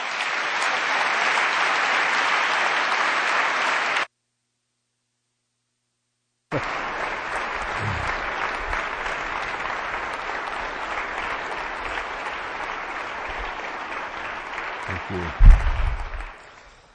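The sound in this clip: An audience gives sustained, dense applause to welcome a speaker. The steady clapping is broken by a short stretch of silence, then resumes, with a brief louder low-pitched swell near the end.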